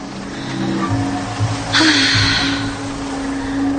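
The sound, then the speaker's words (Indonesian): Bus pulling away from a stop: a low, steady engine rumble with a hum that rises slightly, and a short burst of hiss about midway through. “Bis itu terlihat mulai berangkat pergi.”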